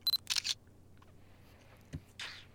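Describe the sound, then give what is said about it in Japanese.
Camera shutter taking a photo: a brief tone and a few sharp, crisp clicks close together at the start. A soft thump and a short rustle follow in quiet. “ほらカメラの方見て。はい、チーズ。”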